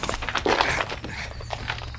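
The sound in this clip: Footsteps walking into a cave: a steady run of crunchy, shuffling steps over loose ground, heard alone with no voices.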